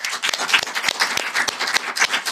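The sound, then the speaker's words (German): Applause for a guest: quick, uneven clapping from what sounds like a small group of hands, with many sharp claps in a loud, steady burst. “Applaus für Mike.”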